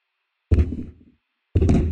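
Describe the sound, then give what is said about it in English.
A chair knocks against a microphone twice, about a second apart. Each hit is a loud, low, boomy thump with a brief rumbling decay, separated by silence. “That's my chair hitting the microphone.”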